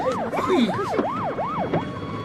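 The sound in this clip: A police car siren arriving: a loud, rapid wail that rises and falls in quick repeated cycles over faint background noise.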